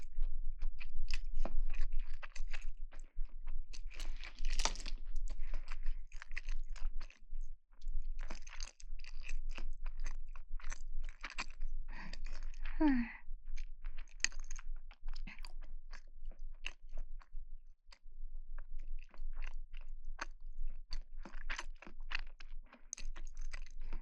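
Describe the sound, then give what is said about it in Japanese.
A person eating alone in silence, with many small crunching bites and chewing clicks in an irregular patter over a low steady hum, and no talk. “味気ない。黙って食べる。”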